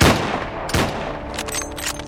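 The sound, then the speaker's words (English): Colt Dragoon revolvers fire at the ground near a man's feet, giving two loud, sharp blasts in quick succession followed by a lingering noisy tail. “He didn't move none, so I pulled my Colt Dragoons and shot holes by his feet.”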